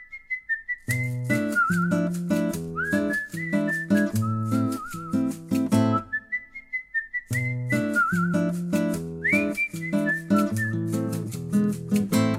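A whistled melody stands in for a guitar solo in a song. Bright, sustained whistled notes glide over steady band accompaniment in two phrases, with a brief break near the middle.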